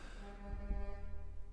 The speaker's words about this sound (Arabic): مزمر زمر يا أخوي سامعين